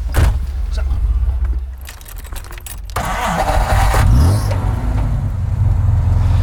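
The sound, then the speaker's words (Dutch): A car engine starts up and the car moves off, the engine rumbling steadily while a rising whine sweeps upward partway through as it picks up speed. “En daar rijden we dan met wapperende haren op weg naar de versmannen.”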